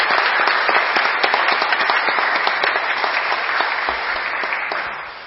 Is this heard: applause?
yes